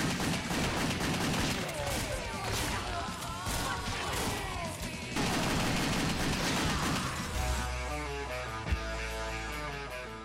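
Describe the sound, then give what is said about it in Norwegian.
Video game gunfire from a pair of pistols, one in each hand, fired by a hired assassin in a gory action game. Rapid, dense shots pile into a loud, continuous barrage with almost no gaps. “De jeg imidlertid brukte mest, var de to pistolene hennes, selvfølgelig én i hver hånd.”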